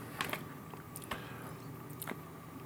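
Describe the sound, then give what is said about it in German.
Biscuits being eaten: faint crisp crunches from a few bites, with soft chewing in between. The sound is quiet throughout. “Ich esse jetzt gerade Kekse, die sind sehr lecker.”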